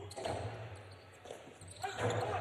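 A jai alai ball bounces on the court during a match, giving a few sharp, hollow smacks spaced apart over a steady wash of background noise.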